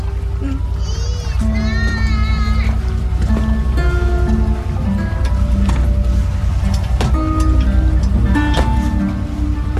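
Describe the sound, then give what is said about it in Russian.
Motor boat casting off and pulling away, a steady low engine rumble running throughout, with scattered knocks, creaks and other tonal sounds layered over it. “Катер отчаливает.”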